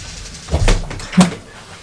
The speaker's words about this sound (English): No, I've got the door for you. Off you go.